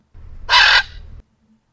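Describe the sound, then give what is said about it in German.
A parrot brought along to an aviation event gives one short, harsh, loud squawk over a low background hum. “Was natürlich auch manches beeindruckt hat, ist der Papagei, der auch mitgekommen war. Sogar der hat etwas für unser Radio beigetragen.”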